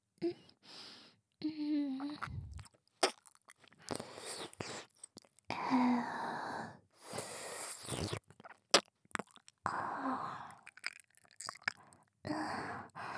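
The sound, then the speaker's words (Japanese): Wet ear-licking and mouth sounds in an ASMR recording: soft slurps, smacks and clicks in irregular bursts with brief silences, mixed with faint breathy noises. “君のお耳、前からずっと舐めたいなって思ってたんだ。おいしそう。いただきます。”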